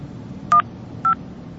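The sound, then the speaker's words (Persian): Two short touch-tone beeps as a telephone is dialed to call someone, each holding a steady pitch, about half a second apart over a low background hiss. “نه خودم الان زنگ میزنم از دلش در میارم”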